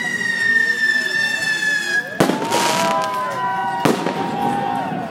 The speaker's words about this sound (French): Alors, on est accueilli sur le port de Rouen par plein de pétards différents qui sont envoyés depuis le port.